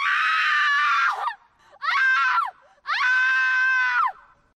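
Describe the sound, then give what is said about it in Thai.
Three long, piercing human screams, separated by short pauses, each held high and strong and then sliding down in pitch as it fades. “ยิ่งเสียงหวีดร้องนี้ถูกปรับเปลี่ยนระดับไปเร็วเท่าใดเสียงดังกล่าวก็จะส่งพลังและเรียกร้องความสนใจได้มากเท่านั้นครับ”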